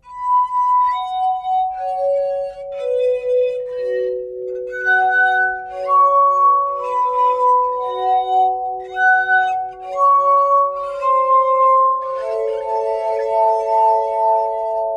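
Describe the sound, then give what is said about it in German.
Glass harp built from glass tubes plays a slow melody of clear, sustained, pure ringing tones that overlap and blend into one another, cool and steady in loudness, with no voices. “Die Töne, die aus den Glasröhren kommen, sind von einer ungewohnten und ungeheuren Intensität. Der Klang ist kühl und er hat etwas Undurchdringliches, Unerbittliches.”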